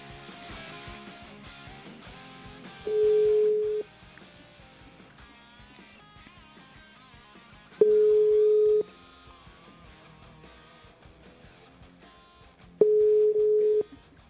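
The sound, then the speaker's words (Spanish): Ringback tones from an outgoing telephone call being dialed: three steady, mid-pitched tones of about one second each, evenly spaced several seconds apart over continuous background music. “Vamos a ver si está dispuesto para contestarnos. Ya estoy marcando.”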